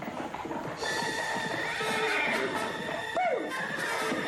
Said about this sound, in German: Kutsche ist da.